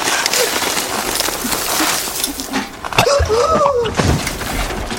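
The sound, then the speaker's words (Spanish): Soil is tipped from a container onto a woman lying in bed, making a broad, gritty rushing scatter with a few sharper thuds partway through. “Rebeca está acostada en su cama. Abre los ojos y ve a Amaranta que voltea un recipiente con tierra sobre ella.”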